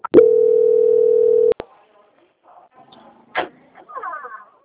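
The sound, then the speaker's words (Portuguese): Telephone line tone during a call transfer: one steady, even beep of about a second and a half, cut off by a couple of sharp clicks, followed by faint rustles and quiet voices. “eu peço que você aguarde na linha, que eu vou transferir agora para o setor de qualidade”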